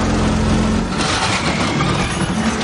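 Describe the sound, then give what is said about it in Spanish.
A car engine rumbles loudly as the car is braked. The noise is steady and broad, with no clear rise or fall. “Ali consigue frenar el coche.”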